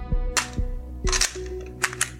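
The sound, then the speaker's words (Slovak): Gunshots from a vz. 58 assault rifle set up for semi-automatic fire: several sharp, loud cracks with dull thumps, fired at uneven intervals. No voices are heard. “upravený pre streľbu v samonabíjacom režime. Veľká útočná zbraň pripomína neslávne známy Kalašnikov”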